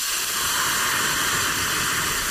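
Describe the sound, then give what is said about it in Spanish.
Hot broth poured into a pan of rice sizzles with a loud, steady, bright hiss that holds evenly for the whole clip, with no voices. “Cuando echéis el caldo a la sartén o a la olla, tiene que sonar así.”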